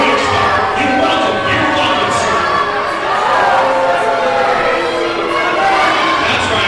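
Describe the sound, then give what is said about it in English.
A wrestling crowd reacts to a wrestler's promo with a sustained, loud roar of many shouting voices that stays dense throughout. “Getting a nice reaction from the crowd, I must say. I don't think you like him very much, the crowd.”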